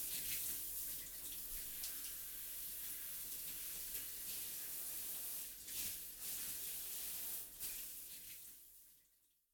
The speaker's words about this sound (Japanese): ざっと流しますね。